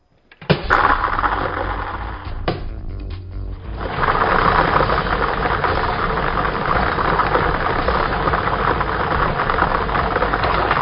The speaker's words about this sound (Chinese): 接下来呢，我们即将启动摇奖机，摇出今天的7个基本号码和一个特别号码球。